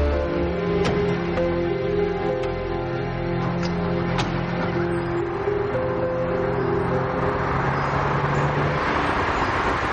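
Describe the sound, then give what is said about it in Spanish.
A car drives along a road through a mountain in a 2001 thriller film, heard as a steady engine and road rumble under sustained musical tones that run the whole length. “Después un coche circula por una carretera que atraviesa una montaña cuando de pronto se detiene al descubrir una furgoneta parada.”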